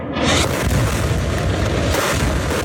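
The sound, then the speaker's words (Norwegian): Bombs exploding over Gaza City make a deep, loud, continuous boom and rumble that holds steady through the whole stretch without clear separate blasts. “Israelske bomber ryster Gaza by.”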